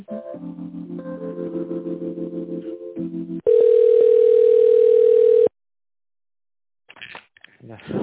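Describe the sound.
A telephone line tone sounds during a call transfer: steady, loud and unbroken for about two seconds. It follows a stretch of patterned tonal signals and gives way to silence before a voice starts speaking at the end.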